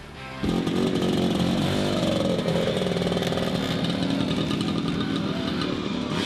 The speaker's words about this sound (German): Mit dem Duft sowie dem Sound vieler Zweitaktmotoren wurden die Leute begrüßt.